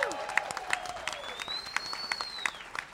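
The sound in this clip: A crowd at Lincoln Hall applauds faintly with rhythmic clapping, and a long sliding whistle rises and falls above it.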